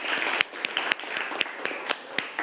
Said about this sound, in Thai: ปรบมือให้เพื่อนนะครับ